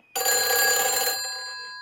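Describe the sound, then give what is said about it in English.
A telephone bell rings at the start of a prank phone call: one loud, bright metallic ring burst that stops abruptly and leaves a fading, humming tail. “I mean, this is like a genius, genius phony phone call. Here we go.”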